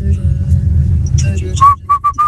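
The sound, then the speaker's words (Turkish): Whistling: a quick run of about four short, clear, high notes, following a stretch of low rumbling noise mixed with scattered brief sounds. “Bu da ıslık abi, geçtik ıslık.”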